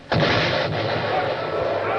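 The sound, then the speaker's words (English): An enemy cannon round shot strikes a ship's gun port in battle: a sudden heavy boom, then a sustained, rumbling roar that lingers at high level. “It happened that a round shot from the enemy entered one of our gun ports.”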